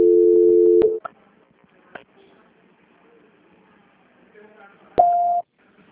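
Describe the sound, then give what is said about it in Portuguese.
Voicemail tones: a steady low beep, then a few faint clicks and near-silence, then a shorter, higher-pitched beep. “Please leave your message after the tone. When done, hang up or press the pound key.”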